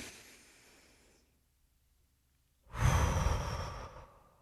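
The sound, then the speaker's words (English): A deep breath drawn in through the nose makes a single loud, breathy rush lasting over a second. It follows a faint fading hiss and a near-silent pause, with no voices. “Just take a deep breath. In through the nose.”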